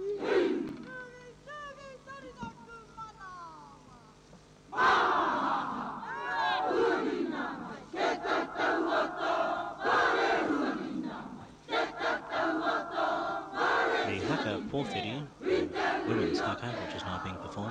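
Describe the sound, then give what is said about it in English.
An old, well-known Maori haka performed by a ceremonial group as a welcome for the Governor-General. A quieter vocal opening gives way after about five seconds to loud, rhythmic massed shouting and chanting with sharp accented bursts. “This is a very, very well known and also a very, very old haka.”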